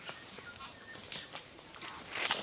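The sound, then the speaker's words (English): Soft crunching footsteps of several people walking in a line through dense forest on a southern island bird sanctuary while searching for snipe; a few faint, irregular rustling steps, quiet and without talk. “We spread out across the forest and begin to walk in a line, which is a darn sight easier to say than it is to do.”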